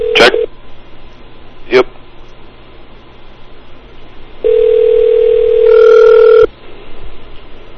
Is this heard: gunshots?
no